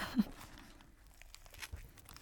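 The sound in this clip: Biting into a gratin croquette burger with shrimp inside: one soft crunch near the start, then faint tearing and crinkling noises at a low level.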